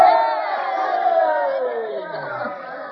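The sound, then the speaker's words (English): A crowd of townspeople shouting and cheering in a radio western drama, celebrating a new mayor: many voices raised together in a loud, overlapping roar that gradually eases off. “Don't shout for me, folks.”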